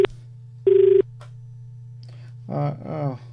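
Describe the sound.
A telephone call connecting on a radio phone-in: a brief tone, then a steady beep lasting about a third of a second over a constant low hum, followed by a short stretch of faint voice.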